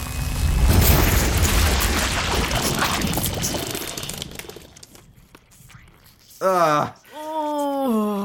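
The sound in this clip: Explosion of an overloaded, overheating machine, a loud, broad roaring blast that rumbles and slowly fades over several seconds, followed by a short vocal cry and then talk.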